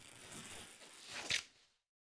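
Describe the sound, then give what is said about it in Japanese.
Scissors cutting into a sleeve cuff: a dry, rasping slice through fabric lasting under two seconds, sharpening into a brief snip near its end before silence. “袖口に切り込みを入れて、ハサミをはわす。”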